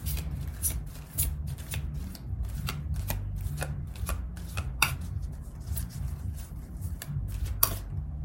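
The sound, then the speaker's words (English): Oracle cards being shuffled by hand: a continuous run of papery riffles and soft slaps, with many sharp flicks and taps that keep going steadily from start to finish. “going to start off by pulling a card of the week from the Energy Oracle. And we're going to see what the energy for the week is going to be for us collectively.”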